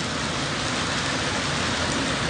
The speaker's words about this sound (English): Thank God for the rain.